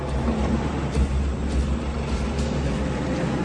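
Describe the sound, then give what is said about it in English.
An old rusty green truck drives away in a hurry, giving a steady low engine rumble that holds at an even level throughout with no voices. “Among the vehicles to leave in a hurry is the same old rusty green truck that accompanies each racist action.”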